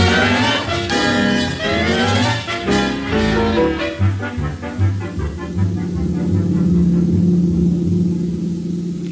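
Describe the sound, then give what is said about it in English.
A car engine runs with a steady low rumble and hum, loud and continuous throughout, with no talk over it. “Walter Denton's driving me down this morning.”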